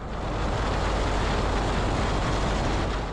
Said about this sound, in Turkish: İki uçağın replikası yapıldı. Uçakların kokpitine Vecihi Hürkuş'un torunu Lee Vecihi Maxson'la akrobasi pilotu Ali İsmet Öztürk geçti. İki uçak bir asır sonra birlikte uçtu.